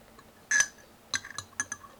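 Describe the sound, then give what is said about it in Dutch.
A spoon clinking against a cup while stirring coffee: a few light, bright chinks, one on its own and then a quicker uneven cluster, faint over a quiet background. “De koffie roeren.”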